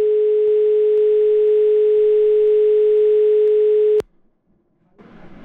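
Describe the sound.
A telephone dial tone, steady and single-pitched, sounds after a call has dropped out. It holds loud and unbroken for about four seconds, cuts off abruptly, and gives way to near silence and then a faint rustling noise.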